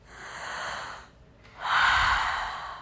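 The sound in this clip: A person takes a big, deep breath, heard as two long, airy breath sounds with a brief gap between them. The second is louder and fuller, like a heavy sigh, and nobody speaks.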